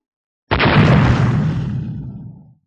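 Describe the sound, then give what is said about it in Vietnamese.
A huge explosion from a planet-destroying energy cannon strikes as one sudden loud blast, then a deep rumbling roar slowly fades over about two seconds. “trong lỗ thủng sâu hoắm đó, dưới năng lượng cột sáng được nén chặt, lập tức hình thành một vụ nổ tung cuối cùng.”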